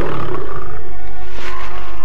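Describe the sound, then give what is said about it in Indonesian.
A large tiger roars: a loud, deep, rumbling growl that stays continuous for the whole stretch, with grunting swells in its texture and no voices over it. “Baru kali ini aku melihat harimau begitu besar.”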